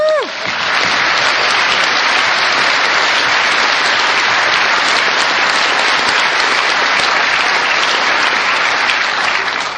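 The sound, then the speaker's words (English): Conference audience applause thanking the event's sponsors, a dense, even wash of clapping that holds at a steady loud level for nearly ten seconds. “Could we have a big hand from the audience?”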